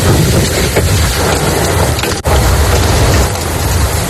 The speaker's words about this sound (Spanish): En el norte de la provincia de Almería suena así el granizo en Macael.